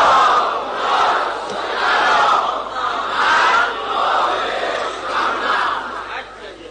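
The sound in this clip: A large crowd at a Ramadan religious gathering loudly recites salawat in unison, voices merging into a sustained roar that swells and ebbs in a few waves before trailing off.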